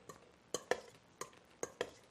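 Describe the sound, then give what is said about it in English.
Potatoes seasoned with salt, pepper and celery seed are stirred through a creamy sauce for a salad. A few sharp scraping, clacking strokes come in uneven pairs, with quiet pauses between them. “so some salt and pepper and celery seed onto our potatoes, and then we're just going to stir them around.”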